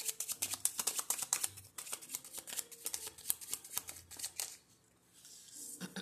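Cards are shuffled for a card reading in a long run of rapid, crisp riffling flicks. The flicks come in bursts, then fade to a quieter patch near the end. No one speaks.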